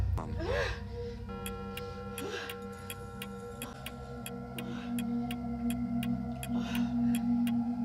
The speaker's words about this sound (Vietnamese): Tiếng kim đồng hồ trong phòng lại vang lên một cách đầy ám ảnh.